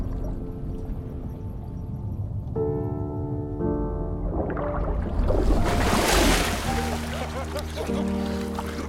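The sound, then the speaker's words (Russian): Water splashes as people jump from a roof into a swimming pool below. A broad rushing burst swells over sustained musical tones, then subsides while the music carries on. “Они опускаются в воду бассейна внизу.”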